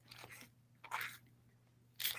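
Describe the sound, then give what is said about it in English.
Loud wet smacking and crunching as someone chews food, three distinct bursts separated by short pauses over a faint low hum. “What is you smacking on? Answer the question.”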